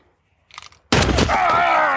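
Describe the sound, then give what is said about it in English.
A single gunshot bangs out sharply and loudly after a brief, faint rustle, its broad noise lingering to the end. “You shoot a total stranger?”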